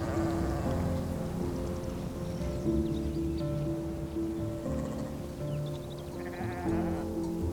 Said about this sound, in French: Il regarda passer le troupeau.